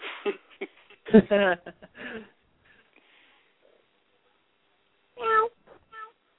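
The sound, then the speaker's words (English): A child's voice imitates a cat's meow, as in a horror film: a few short, high, harmonic mewing cries separated by quiet gaps, with faint breathy noises between. “I don't understand how anybody could be afraid of a little Asian kid that meows.”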